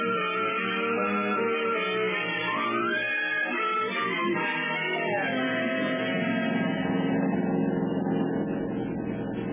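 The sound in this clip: A car being driven, used as a radio drama sound effect: a steady, droning engine hum with a gently shifting pitch and no breaks, holding at an even level throughout.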